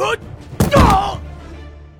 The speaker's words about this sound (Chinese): 在斗魂台边缘的保护绳上弹了一下，直接掉到了擂台下面，发出砰的一声闷响。